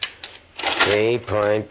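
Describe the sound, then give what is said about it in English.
Clacking tabulating keys pressed swiftly on the control board of a massive laboratory machine: a few sharp clicks, then a denser stretch of clatter with a steady tonal hum running through it. “DeWitt stands before a massive machine that dwarfs all others in the laboratory. Swiftly, efficiently, he presses tabulating keys on the control board, oblivious of all else.”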